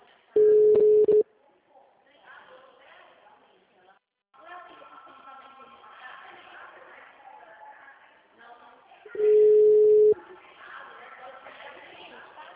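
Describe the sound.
A telephone call going unanswered: two loud, steady mid-pitched ring tones several seconds apart, with murmuring voices and chatter in between.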